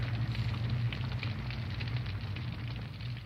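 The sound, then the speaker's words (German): Fire burns a pile of books, crackling and roaring steadily throughout with dense, irregular pops over a low rumbling rush, alone with no voices. “Na, Montag, ist das nicht eine Lust, Feuer zu legen? Ich wusste gar nicht, dass es noch Leute gibt, die so viele Bücher haben.”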